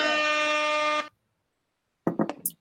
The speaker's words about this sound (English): Can we get a let's get a fucking air horn for that.